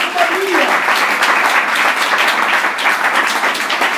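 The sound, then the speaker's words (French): Church audience clapping in praise during a morning service, a loud, dense, sustained wash of many hands throughout, with a brief voice audible near the start. “Tu peux acclamer le Seigneur ce matin.”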